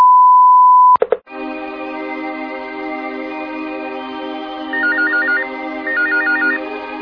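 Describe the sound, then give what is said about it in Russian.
An answering machine beep sounds as one steady, pure high tone for about a second. A loud, buzzy electronic ringing tone follows and holds on, with two short warbling trills rising over it. “Всем привет, меня сейчас нет дома. Говорите после сигнала.”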